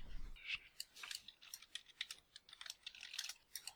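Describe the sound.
Rapid typing on a computer keyboard as a video game title is entered into a search, many quick, soft keystrokes clattering in an uneven stream, fairly faint throughout.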